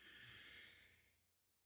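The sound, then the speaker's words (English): One slow, deep breath drawn in through the nose during a guided relaxation breathing exercise: a soft, airy hiss lasting just over a second, quiet and heard alone. “So we're going to breathe in through the nose.”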